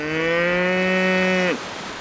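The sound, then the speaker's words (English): A cow lets out one long, loud moo at a steady low pitch that drops briefly as it cuts off, followed by a quiet background. “He sent the cow.”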